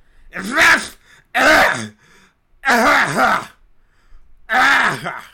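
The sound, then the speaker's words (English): A person's voice imitates a woman coughing: four loud, voiced, groaning bursts with short silent gaps between them, each one harsh and strained rather than crisp. “like clearing her throat? No, she's fucking coughing.”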